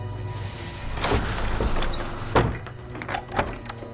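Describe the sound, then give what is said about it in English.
A door is shut while wind swishes through grass outside. Steady, breathy rustling continues beneath a few dull thuds and knocks from the door. “Wind swishes through the grass outside as Jess shuts the door.”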